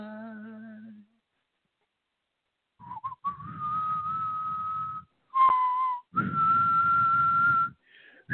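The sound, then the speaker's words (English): A person whistles a few long, steady, high notes separated by short gaps, with a breathy hiss beneath each tone and a brief dip in pitch partway through. “I hate whistling. I hate whistling. Since when? I've always hated whistling. Whistling is such an obnoxious noise.”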